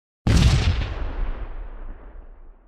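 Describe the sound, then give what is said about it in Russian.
A muffled hand grenade explosion: one loud boom bursts in suddenly after a brief silence, then fades into a long, deep, rumbling decay that lasts until the end. “Раздался приглушенный звук, и осколки гранаты разлетелись вместе с пламенем взрыва.”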